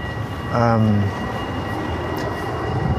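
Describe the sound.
A tram bell gives a single short ding that rings out and echoes in the street, a bright tone that fades quickly over a steady bed of city noise.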